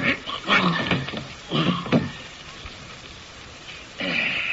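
A dog whimpers while being held down with a twisted rope, its mouth stuffed shut, giving a few muffled, strained bursts of whining that fade to quieter struggling before a final burst.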